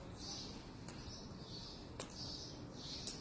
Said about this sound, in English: So I'm walking out into my backyard. There's a lot of birds chirping. There's some drips from the rain we just had.